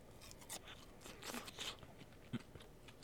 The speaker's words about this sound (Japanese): 次揚げたてメヒカリの唐揚げいただきます